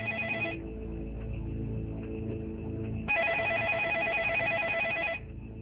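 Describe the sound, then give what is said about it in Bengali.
A mobile phone rings with an incoming call: a bright, repeating electronic ringtone. A short burst of the ring cuts off, then after a pause a longer burst of about two seconds plays over a constant low hum. “Hasan যখন এসব ভাবছিল তখনই তার মোবাইলে phone এলো তার বন্ধু তুষারের”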